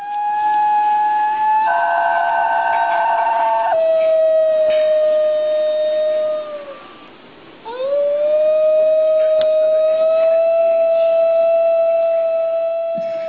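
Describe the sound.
A wolf gives long, sustained tonal howls. The first holds steady, then slides down and fades near the middle. A second howl rises from a low start and holds a level pitch to the end.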